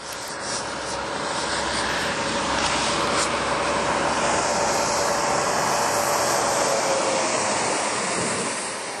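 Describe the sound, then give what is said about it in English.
Steady, loud roar of big trucks passing in traffic, a continuous heavy rumble that stays level throughout with no voices. “This is called truck traffic when it's at this time of the day. At 3 something. It's usually only big trucks.”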